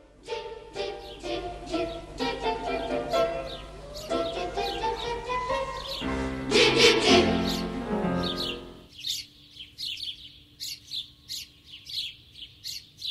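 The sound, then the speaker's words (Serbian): Sparrow song from birds in bushes and treetops near houses: many quick, high chirps and twittering calls repeat throughout at a fairly loud, steady level. “Pesma vrabaca je vesela i bodra, pa su i vrapcima često pripisivane takve ljudske osobine.”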